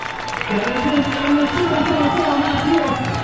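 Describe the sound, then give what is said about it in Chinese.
Crowd cheering and applause after a jump at a ski jumping competition: a broad, steady roar of spectators with a man's voice talking over it. “也是赢得了全场的掌声。”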